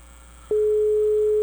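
A telephone ringing tone plays while a call waits to be answered: faint hiss, then a steady, plain mid-pitched tone starts abruptly and holds unbroken to the end.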